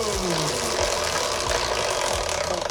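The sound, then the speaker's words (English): A large prize wheel is given a big spin during a quiz game, making a loud, steady rattling whir with a low thump that repeats throughout. “Shall I, I'll spin the wheel. Big spin or little spin? Big spin, please. Here we go!”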